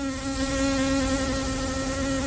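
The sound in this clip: Bees buzzing on Crete give a steady, loud, continuous drone with a clear tonal hum that holds an even pitch throughout, with no voices.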